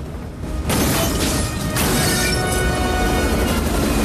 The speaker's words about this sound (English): They shoot at the car, which explodes in a huge ball of flames.